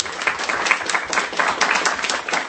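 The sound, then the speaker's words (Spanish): Audience applause welcoming a new panelist on a live radio comics talk show, a bright, busy patter of many hands clapping throughout, slightly muffled in tone. “Me gustaría que por favor le den un aplauso a Juan”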